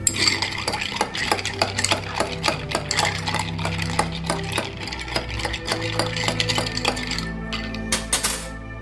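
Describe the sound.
Food is mixed in a bowl with a utensil, producing rapid, repeated clinks and scrapes in a busy, steady rhythm that is fairly loud and heard alone, ending with a few brighter scrapes.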